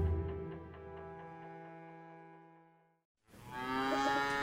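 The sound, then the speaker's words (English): Cattle mooing on a farm: two long, drawn-out moos, the first lasting about three seconds and the second following after a short pause. Both are loud and clear, with no talk. “Well, here we are back on the farm.”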